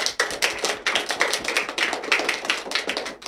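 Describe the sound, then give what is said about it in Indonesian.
Applause from an audience at a school performance: a dense, loud patter of many hands clapping continuously, with no voices. “beri tepuk tangan untuk teman kita yang luar biasa.”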